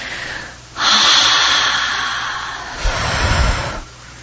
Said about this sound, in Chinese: 我这样深呼吸，吐气的时候，我所呼吸进来的空气，这一道风来，